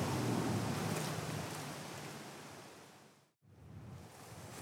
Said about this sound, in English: But it's quite a blowy day today, and we're heading into that wind, of course, walking west